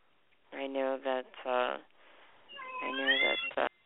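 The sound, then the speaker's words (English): A cat meows several times in a row, loud, tonal cries of varying length, with one longer, higher-pitched cry near the end, while a person talks over and between them. “it sounds like you have a kitty cat in the background, eh?”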